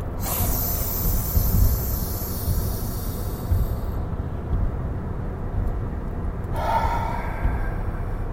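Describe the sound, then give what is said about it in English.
A slow, deep breath drawn in with a long airy rush, held in near silence for a few seconds, then released as a shorter breathy exhale. “Last one, really deep. Hold it at the top and then let it out.”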